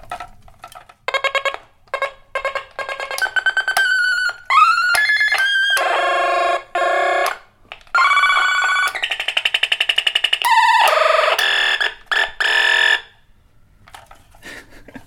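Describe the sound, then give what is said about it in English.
Bright electronic zaps and warbling tones from an old toy laser gun, played as many short bursts separated by brief gaps. Some bursts swoop sharply in pitch, and all are loud and buzzy. “This is a really old, like, laser gun toy. It just makes the coolest sounds.”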